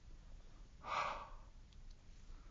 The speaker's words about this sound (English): Now, I take the leaves and breathe upon them.